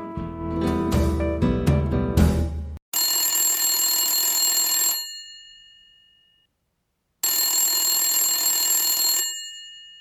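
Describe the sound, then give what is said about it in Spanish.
A telephone ringing for an incoming call, with two long, bright, steady rings of about two seconds each separated by a silent pause, loud and heard without any voices. “Hoy vamos a escuchar una llamada telefónica entre Jorge e Isabel.”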